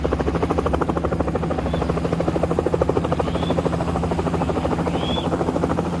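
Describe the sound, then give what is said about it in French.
A helicopter flies two doctors to Yambuku near the Central African border, its rotor chopping in a fast, even, steady rhythm that stays loud and constant throughout with no voices. “Un hélicoptère les achemine tous les deux jusqu'à Yamboukou, près de la frontière centrafricaine.”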